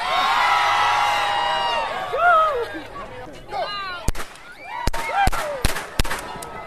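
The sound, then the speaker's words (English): Several sharp, loud bangs from a starting pistol open a costumed city footrace, fired in quick succession after a crowd cheers and whistles excitedly. “They gave me a gun. He didn't have to wait long to shoot it.”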